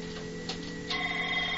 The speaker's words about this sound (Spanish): Está sonando el teléfono inusualmente.